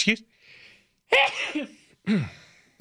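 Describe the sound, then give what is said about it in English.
A person sneezes with a sharp, breathy burst, set between brief voiced vocal sounds before and after. “When I start reading about a hypocrite, I begin sneezing.”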